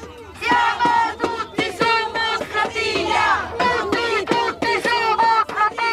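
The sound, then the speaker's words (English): Protesters chant on a boat moving along the Tiber in Rome. Many voices shout loud, rhythmic, pulsing phrases in unison, with short gaps between bursts. “It gets a good reception. People wave at us from bridges and join in with the chants.”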